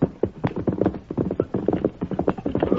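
Horse hooves clip-clop in a brisk, steady rhythm, many hollow thuds following one another, fairly loud and with no talk over them.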